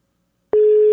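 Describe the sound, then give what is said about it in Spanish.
A telephone tone on a call being dialled that goes unanswered: silence, then a steady, loud, mid-pitched tone starts halfway through and holds to the end. “Ahí le estoy marcando a Corina. No me contesta Corina.”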